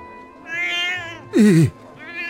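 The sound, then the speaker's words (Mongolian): A cat meows a few times. The middle meow is loudest, wavering and sliding down in pitch, between softer, higher calls. “Зүгээр л муур байна шүү дээ”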